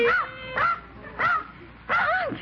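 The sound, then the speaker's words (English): A dog that has just rushed in through a back door yelps and whines four times, each a loud, high, arching yip that rises then falls, with short pauses between. “a dog! I just opened the back door and in he flew.”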